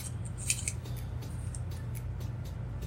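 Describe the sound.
A cigar cutter makes a V cut in a Gurkha Black Ops cigar with a few faint, crisp snips and clicks, heard over a steady low hum.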